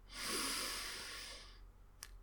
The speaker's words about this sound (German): Nimm nochmal einen tiefen Atemzug und zieh die Schultern zu den Ohren.